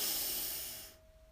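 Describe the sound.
A deep in-breath during a guided breathing exercise: one long airy hiss that starts strong and fades away after about a second, leaving near quiet.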